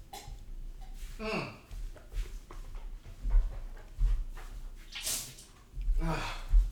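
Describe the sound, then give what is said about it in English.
Mouth rinsing and spitting: several short, wet sloshing and spitting bursts separated by quieter pauses, faint overall and irregular in rhythm. “I'm just sticking to what I'm doing, just rinsing and spitting.”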